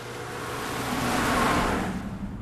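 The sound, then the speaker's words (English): A car drives along an empty country road, giving a steady, low rumble of engine and tyre noise that builds gently, holds, then eases off near the end, with no voices. “The headlights of Sullivan's car illuminate an empty stretch of country road.”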